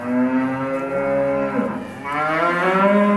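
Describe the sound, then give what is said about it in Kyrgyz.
Cows moo near cattle barns on a dairy farm that has robotic milkers. The lowing is loud, deep and drawn out, wavering slightly in pitch and running unbroken with no talk. “Ар кайсы жылдары курулган сарайларга жакындай бергенде мөөрөгөн мукалардын үнү болду.”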